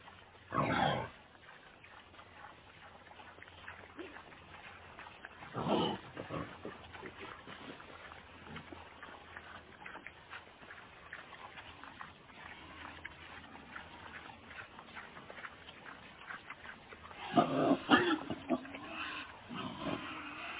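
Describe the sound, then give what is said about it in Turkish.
Wild boar grunts: a few short, harsh bursts spaced well apart, with a louder cluster near the end, over a low, steady background hum. “Wild boar. Erkek domuz. Ibu.”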